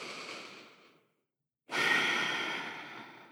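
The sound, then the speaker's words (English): A slow breath during contemplative prayer: one breath fades softly away, a short silence follows, then a long, steady inhale rises in and holds fairly loud to the end, with no voice. “With childlike trust, take the next inhale.”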